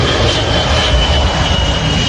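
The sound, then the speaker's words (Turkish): Steady loud roar of a private jet descending to land in Ohio with its front landing gear failing to extend, a continuous broad engine rush with a thin high whine running through it, no voices. “ABD'nin Ohio eyaletinde bir özel jet iniş öncesi büyük bir sorun yaşadı.”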